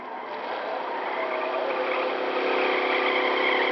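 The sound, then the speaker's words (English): Engine whir of a nuclear roadster driving too fast at night through the woods, a steady, continuous drone that swells slightly louder toward the end, with no talking. “Robbie, you're going too fast. Don't worry. This nuclear roadster handles like a dream.”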